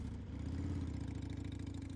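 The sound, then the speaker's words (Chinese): A sidecar motorcycle's engine runs steadily as it is driven off from an alley corner, with a low, even throbbing drone and a faint clatter that stay loud and constant throughout, with no voices. “跑了，宋健，开着这辆摩托回茶楼”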